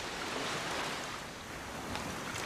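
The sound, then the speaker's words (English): Surf gently lapping a beach at dawn, a steady, soft wash of water that stays fairly even throughout with no clearly separate wave breaks. “At dawn, surf gently laps a beach.”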